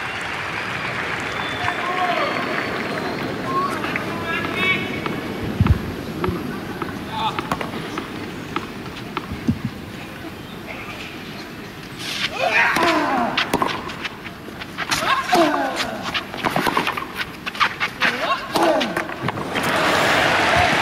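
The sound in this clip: A tennis crowd cheers and claps to urge on Mensik in a semi-final. The applause swells in the second half, with commentators talking over it throughout.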